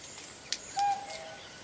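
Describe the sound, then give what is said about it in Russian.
A common cuckoo calls near a tourist campsite with a tent and campfire. One clear hooting note is followed by a fainter trailing note over quiet background hiss. “Девушка, услышав кукушку, смотрит вдаль. Кукушка, кукушка, сколько мне жить?”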